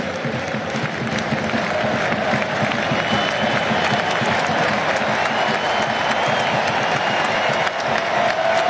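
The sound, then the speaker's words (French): Stadium crowd gives an ovation for a football player being substituted off, dense continuous applause with cheering that holds steady and loud throughout, without a break. “Ah, belle ovation.”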